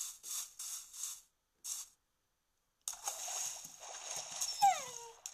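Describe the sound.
Dog sounds from a video game: a few short, bright bursts and a pause, then a steady hiss-like bed with a thin whine that falls in pitch near the end.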